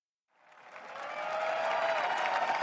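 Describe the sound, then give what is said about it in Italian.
Applause from the audience at WWDC 2019. It starts from silence and swells steadily into a sustained, even wash of clapping. “Gente che applaude.”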